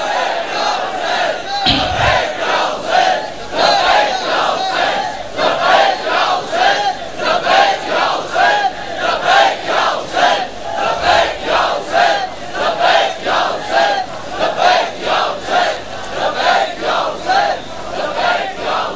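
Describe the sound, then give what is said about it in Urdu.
A crowd chants the Shia religious slogan Labbaik ya Hussain in unison, mourners, scholars and reciters together, as loud, rhythmic chanting with steady repeated pulses and no pause throughout. “آج کے بعد ذاکرین، علماء، تمام شیعہ قوم کے طبقات، ماتمی، نوح خان، سارے کے سارے یکسبا ہو کر ایک ہی نعرہ لگا رہے ہیں، لبیک یا حسین۔”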